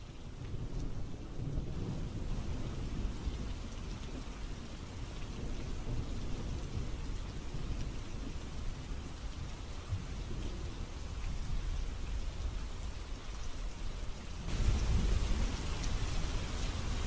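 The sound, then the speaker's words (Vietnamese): Heavy rain hammers a tiled roof in a thunderstorm: a dense, unbroken roar of drops throughout, with deep, low thunder rumbling beneath and a louder surge near the end. “Tiếng sấm đùng đục vang lên, kéo theo đó là tiếng mưa lộp bộp rào rào hắt trên mái ngói. Mưa to lắm”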